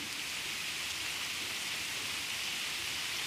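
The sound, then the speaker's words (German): Steady rain falls in a dense, even hiss with no distinct drops or thunder standing out, holding the same level throughout. “so wie der Regen anfängt sich einzuregnen, werde ich noch mal kurz die wohltuenden Tropfen”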